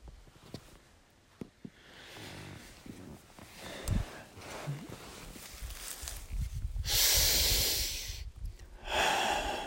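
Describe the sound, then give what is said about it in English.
Deep, slow breaths drawn in through the nose and mouth, a few soft airy inhalations that swell into louder, rushing breaths toward the end. “I breathe in her glorious air, her glorious energy.”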